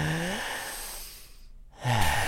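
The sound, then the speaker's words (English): A deep breath taken during a guided relaxation exercise: a long, steady, breathy rush of air at even loudness, with brief voiced sounds at the start and end. “So we can just relax, okay? We take a deep breath.”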